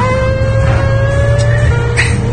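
An old Fiat Stilo car accelerating, with a loud, steady low engine rumble beneath a thin whine that climbs slowly in pitch before dipping.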